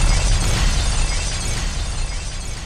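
A loud, dense roar from a bomb drop sound effect, heavy in deep rumble with a hissing spread across the whole range. It holds steady and eases off only slightly by the end.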